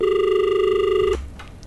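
A telephone rings for an incoming call: one steady, buzzing electronic ring with a bright tone holds loud and unbroken for about a second, then cuts off and leaves faint background noise.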